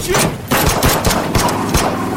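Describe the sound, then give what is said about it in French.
Gunfire from two attackers shooting at a man at a car wash in 1985: a rapid volley of several sharp, loud bangs over a dense, continuous rumble. “Rich lave sa voiture au car wash, deux individus surgissent et lui tirent dessus.”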